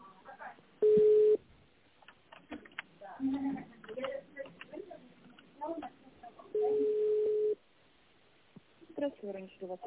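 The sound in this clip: Telephone line tone while a call is being transferred: two steady mid-pitched tones several seconds apart, with voices talking in between.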